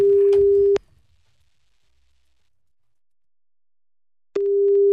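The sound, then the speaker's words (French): Telephone ringback tone heard while calling someone: a steady, mid-pitched tone sounds briefly at the start, then a long silence, then the same tone returns near the end. “On va essayer de l'appeler, elle s'appelle Ludivine”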